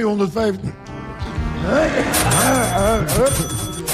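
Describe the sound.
A cash register ka-ching effect at a charity fundraiser: a few bright, ringing metallic bursts with a lingering high tone sound over lively talk and voices.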